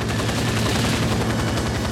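Rapid gunfire, a dense unbroken run of loud overlapping shots that lasts the full two seconds with no clear pauses between bursts.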